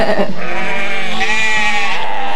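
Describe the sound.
Sheep bleating in a flock: loud, sustained, wavering bleats with a nasal tone that fill the whole stretch, with no voices.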